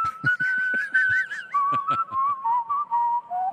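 Trilled whistling by a four-time whistling champion, a clear, loud melody built from warbling trills in short phrases. The pitch slides gradually downward from start to finish.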